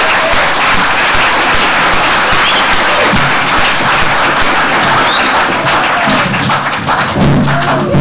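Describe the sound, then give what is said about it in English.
Audience applause in a chapel, a loud, dense and continuous wash of clapping that holds steady for the full eight seconds with no pauses. “Sorry, the applause is overwhelming.”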